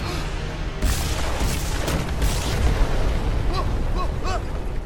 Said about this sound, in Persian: ساختمونی که داخلشی داره منفجر میشه.